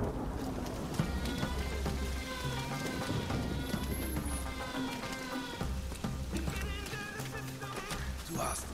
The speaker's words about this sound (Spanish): Parece que están atacando el mismo sitio, pero ahora está lloviendo. ¿Ves esa lluvia?